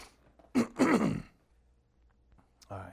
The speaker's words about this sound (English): Got a little frog in my throat